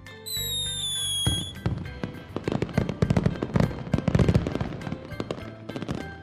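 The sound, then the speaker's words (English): A fireworks display crackles with many rapid, irregular pops and bangs that cluster densely and thin out toward the end, opened by a sustained high tone before the bursts begin. “And to top it all off is the fireworks display.”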